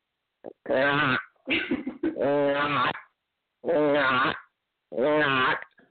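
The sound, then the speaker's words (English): A human voice imitates the mating call of a male tortoise in heat season with a few drawn-out, throaty groans. The groans are buzzy and low-pitched, separated by short silent gaps. “this is the sound of a mating tortoise in his heat season.”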